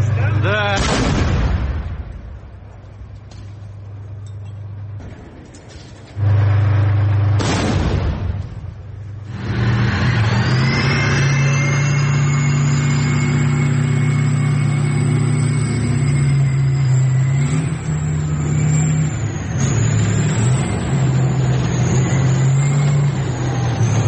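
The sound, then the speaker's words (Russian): A tank engine roars as the tank quickly changes position after firing during urban fighting in Bakhmut. A couple of loud blasts come early, then a sustained heavy drone with a high whining tone runs to the end. “После нескольких выстрелов танк быстро меняет позицию.”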